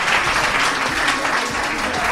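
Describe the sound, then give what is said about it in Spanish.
A group applauds after a throwing demonstration at a school talk. The clapping is steady and fairly loud and runs unbroken through the whole clip. “Bueno, un aplauso, por favor.”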